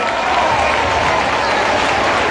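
Audience applause, a dense, steady wash of many hands clapping at full strength throughout, loud and even from start to finish with no voice over it.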